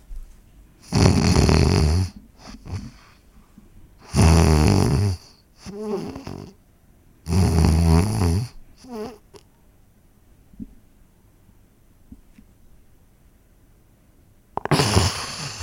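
A person imitates sleep apnea with several loud, rough snoring breaths, then a long silence of held breath, and finally a sudden deep exhalation.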